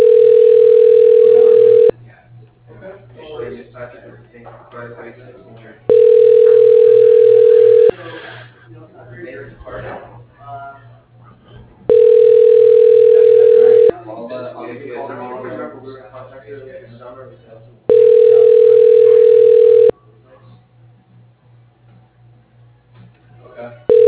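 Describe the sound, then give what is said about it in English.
Ringback tone of a call placed to an office extension: four steady two-second tones repeating at even intervals, with voices talking in the gaps between them. “To return to the previous menu, dialing Clarence Williams, extension 203.”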